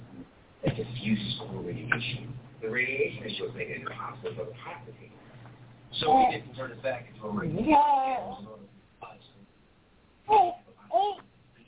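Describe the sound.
A little toddler babbling in uneven bursts of sing-song vocal sounds, ending with a few louder, higher squeals and pauses between them.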